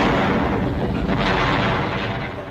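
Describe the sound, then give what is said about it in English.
An exploding barrel of saxophones, played as a radio comedy sound effect, bursts into a loud, rumbling blast of noise that lasts over two seconds and fades slightly at the end. “I'm tired of this barrel of exploding saxophones.”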